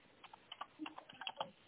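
Faint typing on a keyboard, a quick, irregular patter of soft key clicks.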